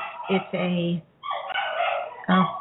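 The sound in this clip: Dog barking: several short, harsh barks and yips come in uneven bursts separated by brief gaps.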